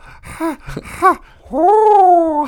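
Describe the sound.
A voice imitates a person's breathing with two short voiced huffs, then a long, drawn-out groaning tone that holds steady and ends abruptly.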